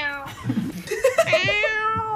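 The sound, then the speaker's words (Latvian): A cat meowing: a drawn-out, wavering cry with bright high overtones that rises and holds. It is fairly faint, with a few shorter low sounds just before it. “Tas jau ir citādāks mjaudiens. Tas ir tas mjaudiens.”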